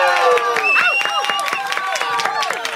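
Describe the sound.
Audience applause for two guest women: dense, lively clapping runs throughout, with excited voices cheering and calling over it.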